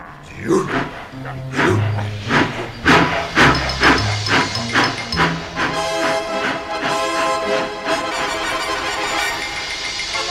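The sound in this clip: A steam locomotive sets off for the workshop in a children's audio drama, giving a run of loud, rhythmic chuffs of steam that then blend into a continuous hissing, tonal sound as it moves away.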